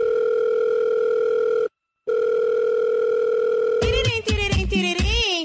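A telephone dial tone hums steadily and loudly before a call. It cuts out briefly, resumes, then gives way to busier, shifting tones near the end.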